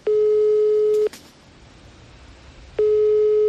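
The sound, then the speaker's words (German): A telephone ringback tone while placing a call: two long, steady mid-pitched beeps, each about a second long, separated by a quiet pause of nearly two seconds. “Und den werde ich jetzt einfach mal anrufen.”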